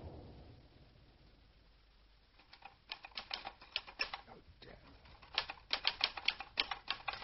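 Rapid typing comes in two runs of clattering keystrokes separated by a brief pause, fairly quiet and with an uneven, busy rhythm.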